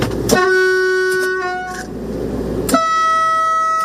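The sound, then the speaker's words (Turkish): A high-speed train sounds its horn during a test run on the Halkalı–Kapıkule line: a loud, steady harmonic blast that fades out, then a second sustained blast after a short gap, over a low rumbling background. “Cumhurbaşkanı Erdoğan vatman koltuğuna oturup hızlı tren hattında test sürüşü de yaptı”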